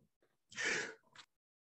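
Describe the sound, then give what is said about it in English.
A single muffled, stifled sneeze, quiet overall. A couple of faint inhalations lead into one short, breathy burst, followed by a smaller trailing puff. “That was a sneeze and a mute, hopefully.”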